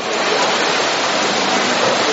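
Heavy rain pouring in a loud, steady, unbroken hiss that stays even from start to finish, with no voices.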